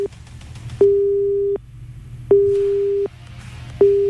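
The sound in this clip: Telephone busy tone on a phone-in call that fails to connect: a loud, steady mid-pitched beep repeating in three even pulses with short silent gaps, the last cut off, over faint background noise.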